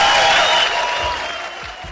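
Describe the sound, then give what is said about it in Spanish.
Audience applause at a live event: a dense, steady wash of clapping that stays loud throughout and eases off slightly toward the end. “Otros aplausos.”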